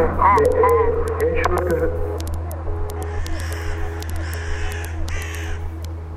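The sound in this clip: Crow cawing: a few harsh caws in the first two seconds over a steady low hum, followed by fainter, higher bird calls.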